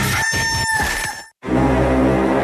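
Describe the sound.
A rooster crowing as a loud, drawn-out call that breaks off abruptly, followed by a brief gap and then a dense, sustained burst of other sound.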